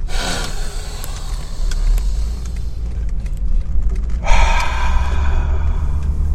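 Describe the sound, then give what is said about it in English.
Deep breathing, in through the nose and out through the mouth: two long, noisy breaths, one at the start and one later, over a steady low rumble. “In through the nose, out through the mouth.”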